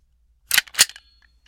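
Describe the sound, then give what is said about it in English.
A gunshot-like report made as two sharp, snapping bangs in quick succession, loud and bright against silence, followed by a couple of faint ticks. “Bart says gun. The answer is gun. You are correct.”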